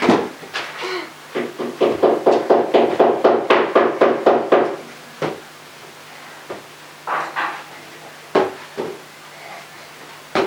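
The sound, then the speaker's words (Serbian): Knocking on a door: a fast, steady run of many sharp wooden raps, followed by a few scattered, spaced knocks. “Ko to lupa? Pogodi. Ko lupa?”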